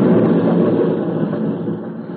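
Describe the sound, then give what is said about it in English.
Explosion of a dynamited railroad bridge, heard as a dull, muffled low rumble that holds briefly and then slowly fades. “That must have been the railroad bridge. We had it dynamited just in case.”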